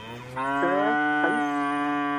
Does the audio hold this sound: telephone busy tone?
no